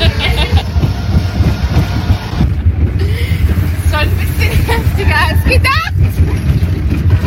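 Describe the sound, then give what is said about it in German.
Roller coaster ride from the back car: steady rumbling and clattering of the cars on the track under heavy wind buffeting, with voices heard throughout. “haben wir uns einfach mal reingesetzt und den Bügel runtergeklappt und sind dann eine Runde damit gefahren. Und Abfahrt!”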